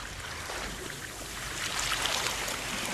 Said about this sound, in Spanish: Ve acoplando tu respiración al sonido de las olas marinas.